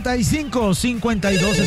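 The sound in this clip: A telephone rings with an incoming call to a radio call-in show, a loud electronic ringtone of rapid, repeating warbling tones that pulse steadily without pause.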